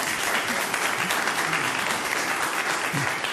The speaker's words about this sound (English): I'm not sure if the applauding is agreeing that they do not want a citizens group, fact finders.